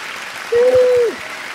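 Brief applause greets the host's mother on a morning show, a short burst of soft clapping texture with a steady mid-pitched tone sounding over its middle.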